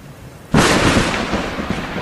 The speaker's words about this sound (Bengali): রাত তখন আড়াইটে। বজ্রপাতের শব্দে ঘুম ভাঙে অনির।